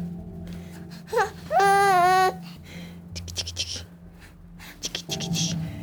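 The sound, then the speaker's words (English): A five-month-old baby babbles, letting out a short, whining vocal burst that sounds like crying, with adult speech quietly around it. “Her baby, he was 5 months old at this point. It's too bad, he sounds like he's crying the whole time on tape, but really he was just trying to blab at me, smiling the whole time.”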